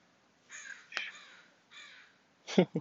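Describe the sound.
A crow caws several times in short, hoarse calls spaced across a quiet morning, fairly faint and alone.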